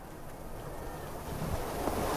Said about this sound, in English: The wind still ruffling hard across the ground.